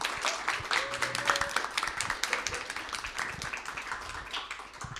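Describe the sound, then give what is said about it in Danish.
Audience applause welcoming two guests at a live youth-led panel event on minority representation in Denmark: dense, steady clapping throughout, with a brief tonal note early on. “Øh, så velkommen til jer. Giv dem lige en kæmpe hånd, og så begynder vi.”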